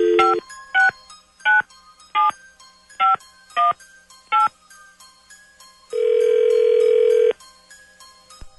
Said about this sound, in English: Dialing at random.